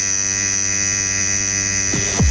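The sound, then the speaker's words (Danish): A tattoo machine needle buzzes with a steady, loud electric drone. Its low humming pitch carries strong harmonic overtones and holds constant throughout. “Ja, sådan en rigtig tattoo-nål.”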